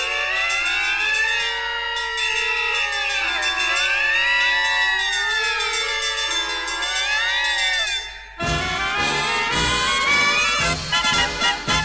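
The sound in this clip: Fire engine siren wailing in loud, steady rising and falling sweeps, several tones overlapping; after about eight seconds it gives way to a denser, pulsing sound.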